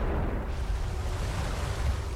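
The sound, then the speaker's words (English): Ocean waves in a shark film, heard as a continuous, heavy rumbling wash of surf with no voices, steady and loud throughout. “these waves are pretty spooky. This is more like a National Geographic.”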